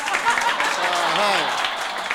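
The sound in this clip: Audience applause as a prize winner is announced, a steady patter of clapping running under a speaking voice.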